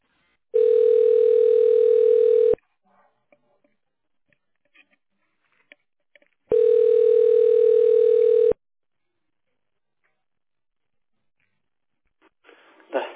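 Telephone ringback tone on a line while a call is transferred to a company's central office: two long, steady, mid-pitched tones of about two seconds each, separated by a quiet gap with faint clicks, then a short burst of line noise at the end.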